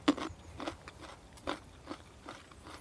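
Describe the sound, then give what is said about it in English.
Crisp crunching as someone bites into and chews a fresh nut with its papery skin partly peeled, several sharp crunches at irregular intervals, faint and alone. “That papery stuff is all quite edible, but to get to the meat of the nut, just to take some of that off.”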